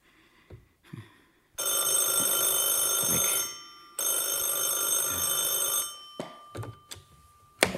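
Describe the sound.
A telephone bell rings twice in long, loud, metallic bursts of about two seconds each, with a short pause between them. A few faint knocks and shuffles sound before and after, and no one talks.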